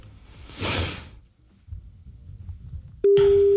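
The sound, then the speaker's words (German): A telephone ringback tone sounds while a call is being placed: a loud, steady, mid-pitched tone that starts abruptly near the end, after a soft whooshing rustle and faint low noises. “es tutet noch”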